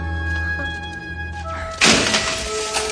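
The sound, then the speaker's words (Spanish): A submachine gun thrown onto the floor in Die Hard (1988) lands with a single sharp thud and clatter. It cuts through sustained orchestral music partway in. “John arroja la metralleta al suelo.”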